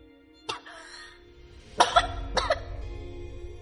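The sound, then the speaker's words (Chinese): A person coughs in a few harsh, abrupt bursts separated by short pauses. The later bursts come in a quick cluster, and a faint steady hum runs underneath. “空气中没有回答，只有若隐若现的咳嗽声传来。”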